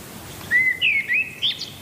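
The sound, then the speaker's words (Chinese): Birds sing in a forest before dawn: a few bright, high whistled chirps and short trilling notes, some sliding in pitch, alone over a faint, steady background hiss. “天还未亮，鸟儿们就开始鸣叫，顺序几乎是固定的。”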